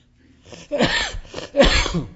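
Harsh coughs from a person at the tail end of a cold, with a couple of strong, rough bursts and smaller throat-clearing sounds between them, loud and close together.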